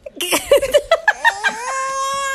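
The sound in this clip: A baby cries in a string of short, high, whimpering sobs that run into a longer, sustained wail.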